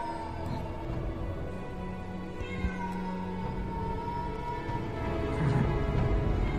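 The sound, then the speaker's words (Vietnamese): A black cat meowing at night, drawn-out wavering cries over a continuous low droning background. “con mèo đen cũng chạy đi xa, chỉ còn lại tiếng của nó kêu văng vẳng trong màn đêm ghê rợn.”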